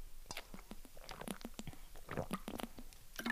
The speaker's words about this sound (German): Ich muss mal kurz einen Schluck trinken.